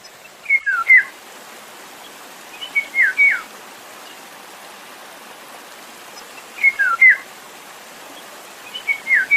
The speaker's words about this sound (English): Talk about the golden oriole. I think it's the Eurasian golden oriole. And first, here's the sound of the bird.